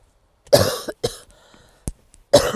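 Coughing from a tickle in the throat: a few dry, harsh coughs in separate bursts with short silences between them, the first and last being the loudest, and no talk.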